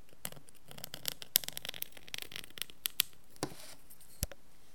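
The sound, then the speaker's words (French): A dip pen loaded with oak gall ink scratches faintly as it retraces an illuminator's drawing. Many small irregular scrapes and a few sharper ticks fall unevenly, with no talk. “je prends un petit peu d'encre et puis je vais repasser en fait mon dessin avec la plume.”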